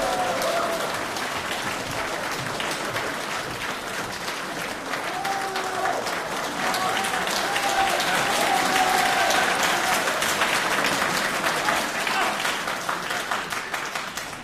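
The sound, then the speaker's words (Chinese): An audience applauds in welcome as crosstalk comedians take the stage. Strong, continuous clapping lasts about fourteen seconds and swells slightly midway before easing near the end. “请大家欣赏相声《问三国》，表演者呢是优秀的青年相声演员史不凡和他的师父李金斗，掌声欢迎。”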